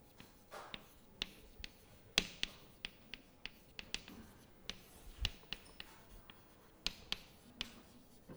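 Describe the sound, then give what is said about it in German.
Marker or chalk strokes on a board during a German physics lecture on the Schrödinger equation: many short, crisp taps and scratches in an irregular rhythm, moderately faint, with no clear talk over them. “Deswegen schreibe ich hier einfach nur mal hin, zeitunabhängige Operatoren.”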